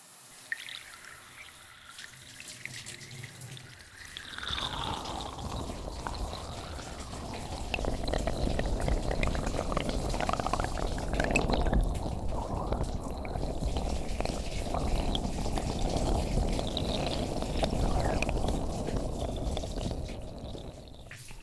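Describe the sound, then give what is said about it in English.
Running water rinses a person's hair during a shampoo session, a steady, soft rushing stream that begins after a few seconds and carries on evenly with no talk. “I'll start first by giving your hair a quick rinse.”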